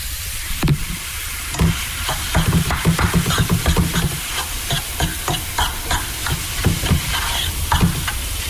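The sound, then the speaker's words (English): Minced meat sizzles steadily as it fries in a pan, with many quick scraping stirs breaking it up at an irregular rhythm. No voices are heard. “once you've got your mince in the pan, very important to give it a nice stir.”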